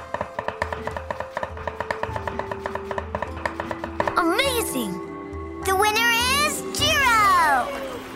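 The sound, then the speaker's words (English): Rapid knife chops slice a cucumber on a board during a speed-cutting contest, with many crisp, evenly spaced taps for about four seconds before excited, swooping vocal sounds take over. “They're sharpening their knives! This is exciting! They have to slice a cucumber into 50 pieces within 15 seconds.”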